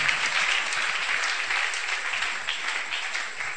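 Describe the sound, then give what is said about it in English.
An audience claps hands steadily through a church song, a dense, even patter of many hands at moderate volume with no clear voices on top. “you can clap your hands”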